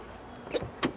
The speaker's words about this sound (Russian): Сафронов садится в машину.